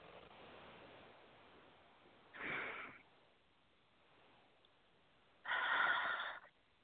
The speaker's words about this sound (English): Take a nice deep breath.